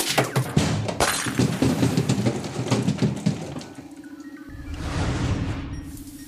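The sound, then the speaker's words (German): A green bottle is knocked over and falls into a cargo hold, setting off a rapid run of sharp glass clinks, rattles and crashes. A low steady hum follows, then a swelling whoosh as a small smoke explosion bursts. “Doch leider stößt er dabei aus Versehen die grüne Flasche um, die runter in den Frachtraum fällt. Das Ergebnis? Eine kleine Rauchexplosion.”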